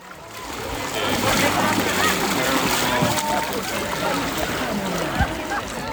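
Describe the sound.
Paddle strokes splash and slosh as a boat is paddled on water, a dense, continuous wash of water noise with one sharper splash near the end.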